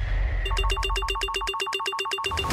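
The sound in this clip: Electronic telephone ring from the Radio Al-Rasheed phone-line jingle: a brief low hum, then many bright, rapid trilling pulses that repeat evenly and loudly to the end.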